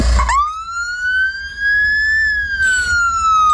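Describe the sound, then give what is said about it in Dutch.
A Norwegian ambulance siren sounds as one loud, continuous wail. Its pitch sweeps up quickly, then climbs slowly, and eases down again toward the end, with bright harmonics over a low rumble. “Dit is het geluid van een Noorse ambulance. Oh ja, dat had hij helemaal speciaal geregeld dat hij even de sirene zo aan mocht zetten.”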